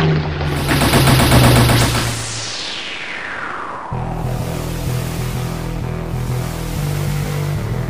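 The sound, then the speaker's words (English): Machine-gun fire from an aircraft on a strafing run rattles loudly for about two seconds, then a whine sweeps down in pitch as the plane passes, leaving a steady engine drone. “It's definitely coming at us. It's preparing to make a strafing run.”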